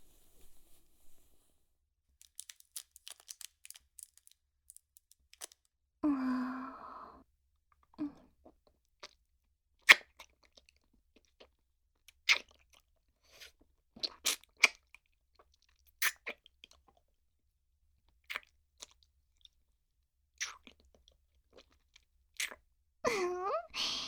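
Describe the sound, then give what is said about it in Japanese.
Hard candy is sucked and crunched in the mouth: faint, scattered crisp crunches and clicks with soft sucking between them, spread irregularly over near silence. “自分へのご褒美に飴舐めちゃおうっと。”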